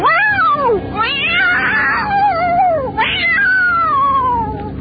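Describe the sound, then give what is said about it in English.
Cats caterwauling and meowing in a horror film trailer: loud, drawn-out yowls with wavering, sliding pitch, one long wail giving way to a second rising cry near the end. “Deep within the Health Science Center at the State University of New York at Stony Brook, the most terrifying experiment in the history of science is out of control. Altered cats.”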